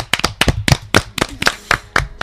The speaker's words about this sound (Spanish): ¿Queréis aplaudirles? ¿Aplaudimos?